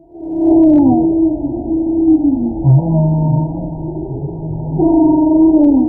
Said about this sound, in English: That's the sound of a humpback whale off the coast of California.